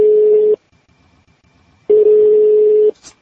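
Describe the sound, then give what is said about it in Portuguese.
Telephone line tone while placing a call: a steady mid-pitched electronic tone sounds twice, first a short burst and then one about a second long, with near silence between them. “vamos ligar, Maurício, o nosso ouvinte”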